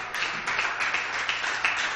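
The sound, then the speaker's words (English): Congregation clapping hands in praise during a worship service, many hands beating in a quick, even, continuous patter at moderate loudness. “Let's worship Him and give Him a hand clap of praise.”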